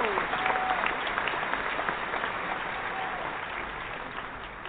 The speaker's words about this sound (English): So I want you guys to put your hands together and help me welcome Ms. Author Mary Moss.